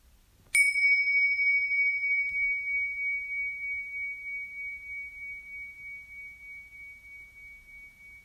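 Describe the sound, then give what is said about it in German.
A single strike of a small cymbal rings out with a bright, pure metallic tone. It sustains alone in near-silence, fading slowly over several seconds. “Hier kommt der Klang der Zimbel.”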